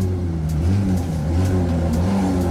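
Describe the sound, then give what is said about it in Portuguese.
A Porsche car passing, heard as a steady, fairly loud low engine drone with rich harmonics that shift slightly in pitch, with no voices. “deixar o Porsche passar.”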